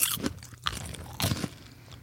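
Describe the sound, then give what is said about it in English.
Crunchy cheddar-flavored popcorn is chewed at close range, with a few sharp, crisp bites and grinding crunches in an uneven rhythm and no talk. “It is popcorn from our sponsor, Pre-Popsterous, that absurdly flavorful popcorn. I brought you some today. You did, and I appreciate that. I believe I've got the cheddar flavor. Let's give that a go.”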